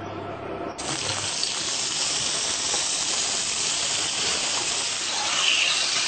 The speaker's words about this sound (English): My oil is hot and I'm going to put in the rice.